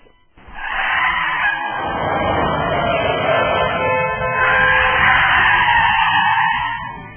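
Engine roar and skidding of a pickup truck plowing through a ditch onto a road, kicking up dirt, mud and gravel, forming a loud, continuous rough rumble that holds for about seven seconds.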